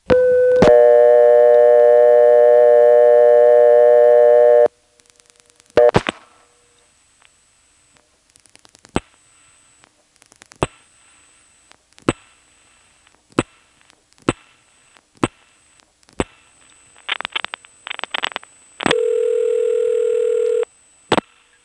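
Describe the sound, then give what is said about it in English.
A telephone dial tone holds steady, then stops. Sharp line clicks and pulsing follow at uneven intervals after dialing 8 plus a working number in Greenville. A ringing tone sounds near the end. “Now when we dial 8-plus a working number in Greenville, we'll hear even more pulsing.”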